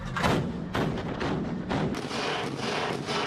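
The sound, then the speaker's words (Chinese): A naval ship's main gun fires at air targets during fleet combat drills: heavy, booming thuds come one after another in quick succession, each a loud, broad blast of noise overlapping the next. “主炮跟踪锁定目标方位，对空中目标实施自由抗击。 敌机 B 两架向我进飞， 开火。”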